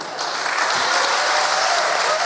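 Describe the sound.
Audience applause rewarding a speaker at a public gathering: dense, steady clapping that stays loud and unbroken throughout, with no voices standing out.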